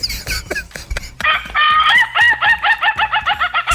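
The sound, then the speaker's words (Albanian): A rooster crows and clucks in a quick, loud run of bright, pulsing calls, preceded by a few short, sharp clicks. “mbas gjithë këtyre le të qeshi prapë ky gjeli”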